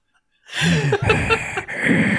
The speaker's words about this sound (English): Heavy German breathing is heard over the loudspeakers.